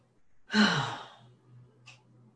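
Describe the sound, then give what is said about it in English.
A deep breath: one long, breathy exhale that starts strongly and trails off over about a second, then a faint, short puff of breath, with a low steady hum underneath. “I take another deep breath.”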